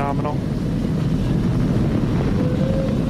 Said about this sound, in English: And Falcon 9 and look at them go.